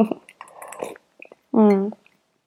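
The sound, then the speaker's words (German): A person takes a drink: wet sipping and swallowing noises, then a short voiced sound after a pause. “denn ich muss erstmal was trinken”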